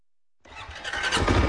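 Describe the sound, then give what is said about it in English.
A four-wheeler engine starts up on a southeast Nebraska ranch: silence, then the motor catches and builds into a steady, growing rumble that is loudest at the end. “Alex McKiernan is driving me across his southeast Nebraska ranch on a four-wheeler”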